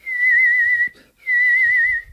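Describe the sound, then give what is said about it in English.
Whistled call from a dragon whistler: two long, sustained high notes with a slight waver, each holding steady for nearly a second, separated by a brief pause, clear and alone. “Again and again, the whistle bristles in the hot silence of the dragon's brain.”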